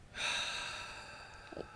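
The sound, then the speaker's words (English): A slow, deep breath drawn in as one long airy rush lasting over a second, fading gradually and followed by a brief faint puff at the end. No voices are heard. “Taking slow, deep breaths can help you stay calm.”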